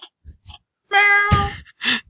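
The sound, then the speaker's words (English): A person imitates a cat meowing: a few faint short sounds, then a long, drawn-out, nasal meow followed by a shorter, louder one. “Meow. Meow meow meow meow meow. Well, you're doing a good job at being a kitty.”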